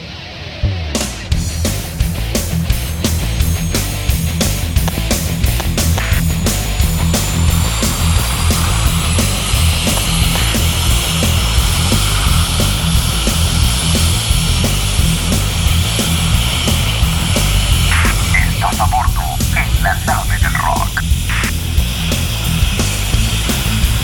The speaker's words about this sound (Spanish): Autorizado despegue, Nave del Rock 001.